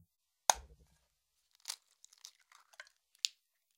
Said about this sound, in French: Huitièmement, on sèche l'œuf avec un essuie-tout.